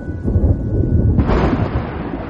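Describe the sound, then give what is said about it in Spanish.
Thunder from a lightning strike on the horizon during a foggy, rainy spell. A deep, loud rolling rumble continues steadily throughout, with no break. “Un rayo cae por el horizonte.”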